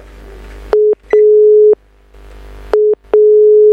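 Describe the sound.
A telephone call goes unanswered as a loud, steady mid-pitched tone plays in a short-then-long pattern, repeated twice, with brief gaps of faint line noise between the beeps.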